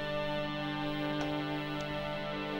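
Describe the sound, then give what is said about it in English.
Second string voice from a synthesizer's ensemble section, a soft, sustained chord with a rich, even texture that holds steadily at a quiet level. “This is the second string.”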